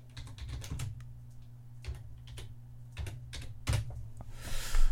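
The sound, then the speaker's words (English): Typing on a computer keyboard: many irregular, crisp keystroke clicks patter throughout, growing a little louder near the end, over a steady low hum with no talking. “I can't type.”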